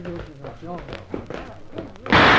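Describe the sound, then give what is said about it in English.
A single loud gunshot bursts in abruptly at the end, right after someone speaks. “Where did that shot... Someone behind the mob. Stopped him anyway.”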